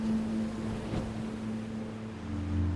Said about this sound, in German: Sie hören die Wellen, wie sie kommen und gehen,